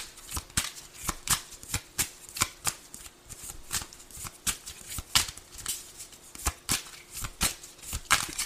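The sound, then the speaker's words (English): Playing cards being shuffled and drawn for a reading, with many rapid crisp riffling snaps and slaps in a steady, irregular rhythm, no voices. “All right, may I have some cards, please?”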